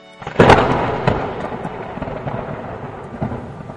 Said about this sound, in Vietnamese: Một ánh chớp, một tiếng sấm rền vang.